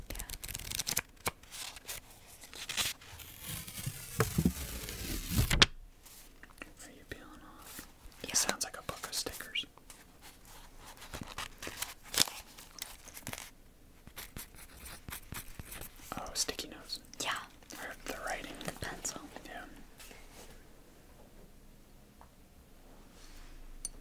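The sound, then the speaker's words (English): Crackly, rustling peeling noise of a sticker being pulled off, loudest and densest in an opening burst of a few seconds, then thinner intermittent crinkles and taps, with soft whispering throughout. “Another sticker sound.”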